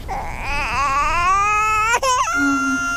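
An infant crying loudly in a sustained, wavering wail that breaks off with a sharp catch, then carries on as a thinner, steadier whimper.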